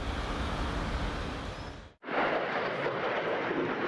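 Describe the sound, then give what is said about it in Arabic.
A loud, broad roaring rush from an American THAAD interceptor missile launching over Tel Aviv to intercept an Iranian ballistic missile. The roar drops out sharply at the midpoint, then surges back just as strong. “صاروخ ثاد الأمريكي ينطلق في سماء تل أبيب لاعتراض صاروخ باليستي إيراني.”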